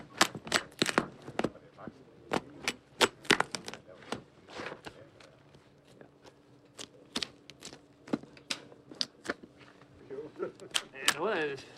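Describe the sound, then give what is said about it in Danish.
Sharp cracking snips as a hedge-shear-like cutting tool opens a giraffe's ribcage during a dissection, with many irregular crunching clicks of varying loudness spread through the stretch. “Lige nu, der klipper vi brystkassen op på giraffen, så vi kan komme ind til vommen og tarmene inde i buhulen.”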